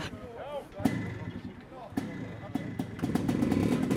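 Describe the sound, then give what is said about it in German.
Enduro Classic competition motorcycles are kick-started by leg power: a few sharp kicks and thuds, then an engine catches and settles into a fast, pulsing idle that grows steadier. Voices sound faintly underneath. “Vor den Vollgasgeschichten kommt Vollgas und davor das Antreten der Maschinen. Hier hilft keine Elektronik, hier ist Kraft im rechten Bein gefragt.”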